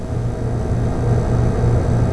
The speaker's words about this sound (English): recording of a GE model TBX refrigerator operating on normal utility power followed by inverters providing pure sine wave and modified sine wave output. Here's the motor running on utility power.